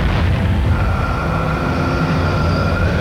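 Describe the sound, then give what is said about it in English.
A bomb explosion heard as a loud, continuous low roar that stays steady for about three seconds, with no distinct onset or fade and no voices. “I'm gonna bomb Mordor, Stan.”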